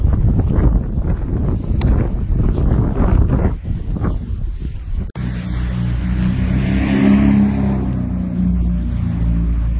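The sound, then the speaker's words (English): Street traffic while walking along a street: a continuous low rumble of passing vehicles with wind buffeting the microphone, a brief dip midway, then a steadier engine hum. “As you can hear, I'm no longer on the oval but walking along the street.”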